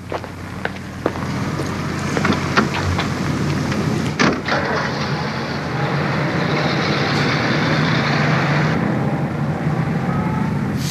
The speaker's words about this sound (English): I'll shoot your car in the garage here.